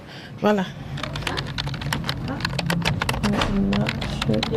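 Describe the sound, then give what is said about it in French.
Someone types on a computer keyboard while writing up care observations after giving care. Many rapid, irregular key clicks run through the whole stretch. “je dois aller vers l'ordinateur pour écrire mes observations”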